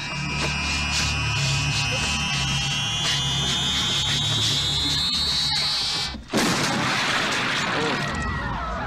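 A cartoonish head-exploding sound effect: a rising whine climbs steadily for about six seconds, then breaks into a sharp burst followed by a sustained, noisy rush.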